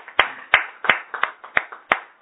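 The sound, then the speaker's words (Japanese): Applause for a birthday celebration: a handful of separate, sharp hand claps in an irregular rhythm, each a crisp smack with a short decay, moderately loud and with no voices. “36歳を迎えられましたので盛大な拍手です”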